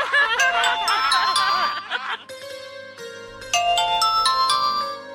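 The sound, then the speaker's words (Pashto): A telephone ringtone plays as a bright, tinkling electronic melody of clear, bell-like notes at moderate loudness. A denser, wavering passage comes first, then separate chiming phrases follow after a short dip. “دا خو ستاسو د بابا ټلیفون دی”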